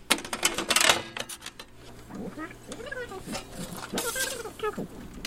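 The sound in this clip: An old reel-to-reel tape machine runs with its pinch roller knocking against the tape. A burst of mechanical clicks and clatter leads into warbling, voice-like tape sounds and scattered ticks.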